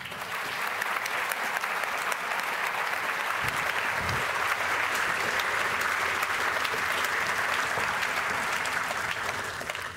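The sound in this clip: Audience applause welcomes a speaker onto the stage at an event on AI and ethics. Dense, even clapping holds steady and loud for the whole stretch, with no voices over it.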